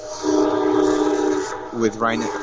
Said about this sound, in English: I'm right next to Penn Station. I guess there's a diesel train coming in